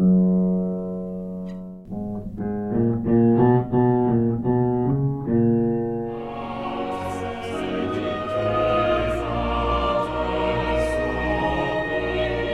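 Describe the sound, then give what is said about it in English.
Bach's Mass in B minor, Et in terra pax: after a low held note, the bass line climbs upward in heavy, lumbering steps. Fuller orchestral and choral texture then swells in above it. “Listen to that bass move up. After the pedal point is done, the bass is starting to move up. And it has this like lumbering effect almost.”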